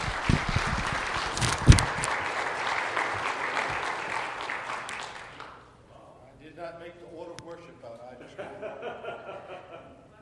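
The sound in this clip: Audience applause welcoming a pastor at a morning gathering: dense, lively clapping with a few chuckles, fading out after about five seconds. A voice then begins speaking.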